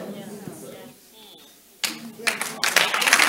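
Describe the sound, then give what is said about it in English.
Clapping from a church audience during a sermon: after a quieter stretch, a burst of sharp, dense hand claps starts and carries on steadily, mixed with voices. “before you finish clapping”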